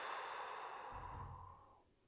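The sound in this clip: Slow exhale during a guided breathing exercise, with hands resting on the belly: a soft, steady rush of airy breath that gradually fades out over about two seconds. Quiet, with no talk.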